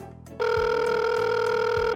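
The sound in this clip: A telephone rings and goes unanswered, sounding one long, steady electronic ring that starts and stops abruptly at an even loudness.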